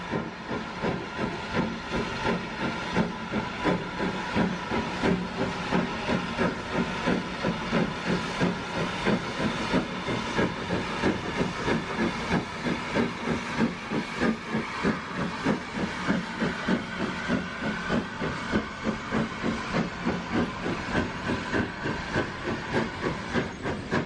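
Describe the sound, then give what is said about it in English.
LMS Black 5 steam locomotive No. 44871 departing up a stiff bank out of Keighley, its rapid, evenly spaced exhaust chuffs beating steadily over a constant hiss of steam throughout. “also comes from Andrew, and it shows the LMS 460 Black 5 Loco 44871 departing up the stiff bank out of Keithley.”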